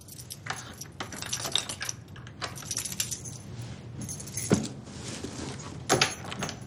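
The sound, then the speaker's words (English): Keys jangle and clink in a busy, continuous metallic rattle as someone pulls them out at an apartment door after setting a box on the floor, with a few sharper clicks standing out near the end; nobody speaks. “Now she finds her apartment, sets her box on the floor, takes out her keys, and opens the door.”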